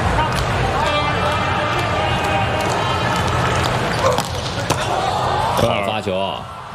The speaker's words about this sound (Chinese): 发球直接得分，球速非常快啊， 球速快，力道很足，有内劲儿